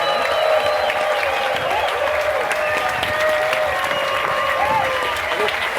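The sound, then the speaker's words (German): An audience applauds to welcome a guest at a live event. Dense, steady clapping fills the whole stretch at an even level, with a few faint voices mixed into the crowd. “Einen großen Applaus für den Roy.”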